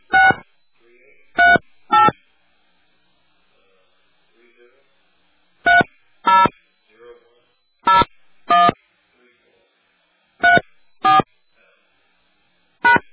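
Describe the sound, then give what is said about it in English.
Telephone keypad tones as a personal ID number is entered at an automated phone prompt: ten short, sharp beeps, mostly in quick pairs, separated by quiet pauses. “Please enter your personal ID number, followed by the pound sign.”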